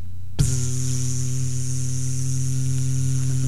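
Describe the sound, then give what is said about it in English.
A voice imitates a didgeridoo with a steady, low, buzzing drone full of overtones. It starts abruptly and holds at an even loudness for about three seconds with no other sounds. “you know what a good Australian instrument is? The didgeridoo. But, like, right now, here, I'll just mimic their instrument, all right? It sounds like this.”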